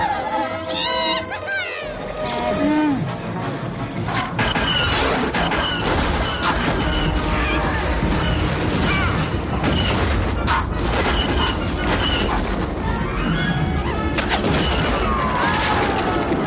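Blaster fire and crashes fill a Star Wars: Return of the Jedi forest battle as Chewbacca shoots at Imperial soldiers and Ewoks fight back. The dense, continuous barrage of bursts and impacts stays loud throughout.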